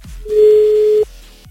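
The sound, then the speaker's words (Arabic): A phone call rings out with a single steady, mid-pitched ringback tone lasting under a second. It is loud and clean, with no voices. “خلينا نشوف يا رب يرد. عم اتصل”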